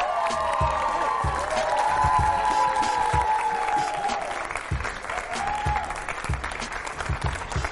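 Loud audience applause and cheering greet a football player walking on at a live show with students from Keefe Tech; dense, sustained clapping with whoops, swelling early and then easing slightly but staying strong throughout.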